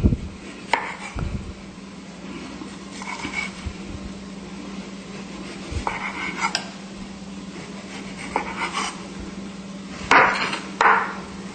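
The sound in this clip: Ginger root being peeled and cut on a cutting board: scattered sharp knocks and short scraping strokes with quiet gaps between them, over a low steady hum, ending with a couple of louder clatters.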